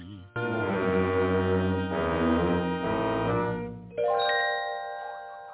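A gong is struck twice, each hit ringing out in a sustained, bright harmonic tone. The first tone lasts several seconds; the second strike near the end brings a different, higher-sounding ring that slowly fades. No voices are heard.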